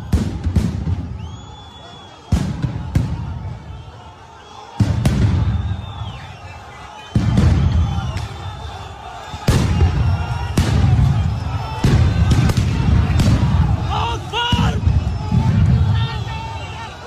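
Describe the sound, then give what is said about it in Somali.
Stun grenades are thrown at worshippers at Al-Aqsa Mosque, producing several loud, sharp blasts a few seconds apart over continuous crowd noise, shouting and talking voices. “هذا الوضع هلأ من المسجد الأقصى القنابل الصوت عم ترمى وين ما كان على المصلين الآن”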